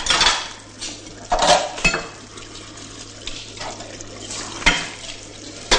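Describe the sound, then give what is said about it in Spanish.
Dishes, pots and pans are washed in a kitchen sink, with scattered clinks of crockery and cutlery and several sharper clatters over running water. A low steady hum sits underneath, and no one speaks. “está fregando los cacharros”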